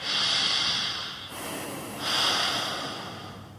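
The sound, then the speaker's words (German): A deep, deliberate breath in and out comes at the close of a seated, eyes-closed meditation. Two long, soft, airy rushes follow one another with a brief lull between them. “Atme nun zum Abschluss einmal bewusst tief ein und aus.”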